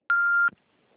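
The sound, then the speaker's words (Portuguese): A single voicemail beep sounds after a recorded greeting: one steady, mid-high electronic tone lasting under half a second. A soft short click follows, then near silence. “Não é possível atender a sua chamada. Por favor, deixe sua mensagem após o sinal.”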